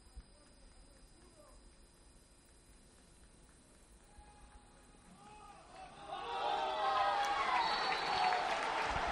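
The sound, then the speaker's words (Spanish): A stadium crowd at a nearly full football ground swells into loud cheering and roaring for its team after several seconds of low murmur and talk. “arranca el público a Monja para animar a sus hombres. Confirmamos que el estadio está prácticamente lleno”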